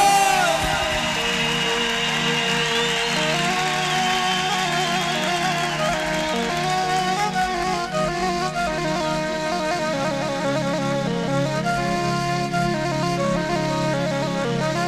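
An audience applauds and cheers a guest, a continuous wash of crowd noise with whoops and shouts that holds loud and steady for the whole stretch.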